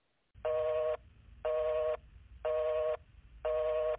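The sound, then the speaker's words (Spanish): A telephone busy tone follows a dropped call: four evenly spaced, half-second beeps of a steady buzzy mid-pitched tone, fairly quiet, over a low background hum. “Se ha cortado la llamada, vamos a intentar recuperarla.”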